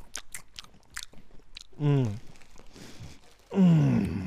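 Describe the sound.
Crinkling of a bag of Shapes chips as a handful is grabbed: a run of sharp, crackly rustles and snaps, followed by people talking.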